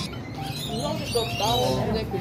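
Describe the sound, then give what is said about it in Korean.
A parrot calling with short, warbling chirps and whistle-like tones that rise and fall, heard under people talking. “앵무새였어”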